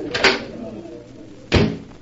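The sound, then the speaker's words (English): A door opening onto a terrace gives two dull clunks about a second apart, over a low background murmur. “Can't we go someplace and talk? What about the terrace? All right, Chris. Here, this door opens onto it.”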